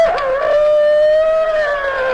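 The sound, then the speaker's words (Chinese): A human voice imitates a rooster crowing, like a chicken thief faking a cockcrow at night. It is one long, loud, tonal call held steady after a brief rough onset. “偷鸡的装起来了公鸡啼。”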